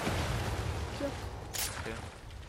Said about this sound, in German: Oh mein Gott, aber schießt mich an. Einer schießt mich an mit einer exotischen Waffe.